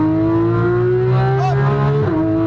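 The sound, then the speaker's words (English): A race car engine runs under heavy throttle with a downshift, giving a loud, steady droning roar with a brief dip and blip in pitch near the end. “Downshift. Unwind. Lots of throttle. Go for it.”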